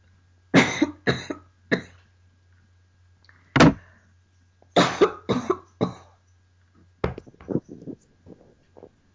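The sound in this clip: A person coughs hard from something caught in the throat, with sharp coughs in short clusters separated by quiet gaps, tailing off into smaller, weaker coughs.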